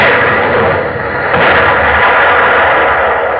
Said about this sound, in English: Aim for her mast. We might get a lucky hit. Aye, sir. She's running, drat her. Open fire, Mr. Quinn, open fire!